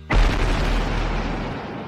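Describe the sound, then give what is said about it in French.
A bomb explosion: one loud, deep boom that bursts suddenly and keeps rumbling, fading only slowly to the end, with no voices. “on entend la bombe.”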